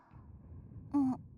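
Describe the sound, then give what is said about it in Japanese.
A short voiced yawn comes as a brief, sighing vocal tone that dips slightly in pitch and is noticeably louder than the faint low background noise before it. “あくびしてる。そんなに眠いの？”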